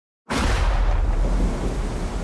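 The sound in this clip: A thunder and rain sound effect for a cold, rainy night: a sudden loud crack after a brief silence, then a dense, sustained roar of rumbling noise that fades slightly toward the end.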